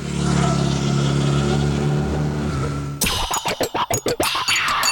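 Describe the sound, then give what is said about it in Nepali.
A Hero Xpulse 200 motorcycle with an 18.4 hp engine, dual-purpose tyres and rear monoshock revs hard: a steady drone gives way to a run of short, sharp throttle bursts separated by brief dips. “जसमा छ 18.4 HP engine dual purpose tyre र rear monoshock प्रविधि hero XPulse 200”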